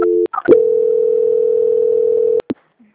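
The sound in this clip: Steady telephone line tone during a call transfer: a single continuous mid-pitched tone holding for about two seconds, framed by brief clicks and a short tone burst at the start.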